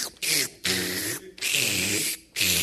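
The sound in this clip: A voice imitates slurping the last bit of a drink through a straw in a cup: a few loud, hissing, gurgly sucking bursts separated by short breaks.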